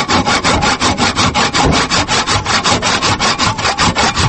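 Hand sawing through wood branches cut for winter firewood: many even, rasping strokes in a steady back-and-forth rhythm, loud and unbroken throughout.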